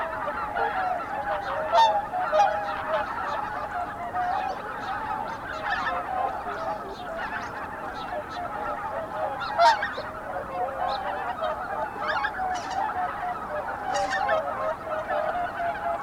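Greater white-fronted geese honking on a misty lake at dawn: a continuous chorus of many overlapping nasal calls, some louder cries standing out against the steady flock.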